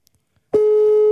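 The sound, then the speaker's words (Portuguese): A phone call ringing tone starts after a short silence and holds as one steady, single-pitched beep through to the end. “Está a chamar. Ele não vai atender.”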